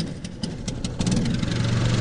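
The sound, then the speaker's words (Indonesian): The engine of a small wooden motorboat built of ironwood runs in a steady, low, rumbling drone that grows slightly louder and denser partway through, with no voices. “saat ini saya sudah berada di atas kelotok yang terbuat dari kayu ulin ya. Cukup kecil dan kendaraan inilah yang digunakan untuk”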